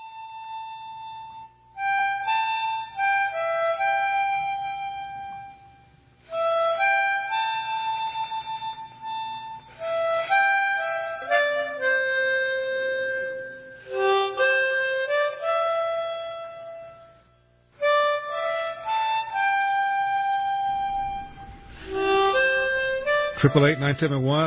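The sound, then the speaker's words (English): A harmonica plays solo in several reedy, sustained phrases separated by short pauses. Notes slide and bend between pitches, and a warbling flourish closes the passage. “That is the sound of my guest on his harmonica.”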